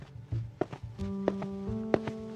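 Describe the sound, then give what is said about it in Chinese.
Footsteps approach at night through a cluttered street: a few irregular, soft thuds and taps sound over sustained musical tones, fairly quiet overall. “脚步声越来越近，在江河借着杂物隐蔽身形的同时，对方也在借着杂物前行。”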